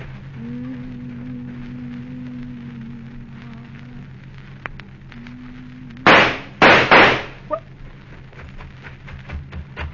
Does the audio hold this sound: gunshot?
yes